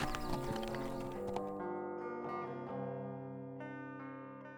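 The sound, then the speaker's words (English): Horse hooves clip-clop briefly as a rider sets off into bright sunlight, a faint quick patter that fades early. Sustained tonal notes ring on alone afterward. “Ponce rode out into the bright sunlight and headed for Mesquite”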